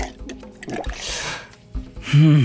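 Someone drinks citrus juice from a jug, with wet gulping and slurping liquid sounds rising and falling in uneven swells, followed by a brief, loud vocal sound at the end.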